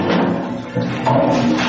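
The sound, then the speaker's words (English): A chain-pull toilet with a rabbit's-foot handle flushes in a loud, continuous rush of water lasting under two seconds, with no talk. “Do your toileting at your leisure, pull the rabbit's foot-handled chain, and flush for luck!”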